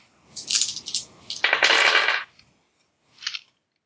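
Dice clattering as ten dice are rolled to punch a rat in a tabletop role-playing game: a few short rattling bursts, then one longer, louder clatter, and a brief final click after a pause.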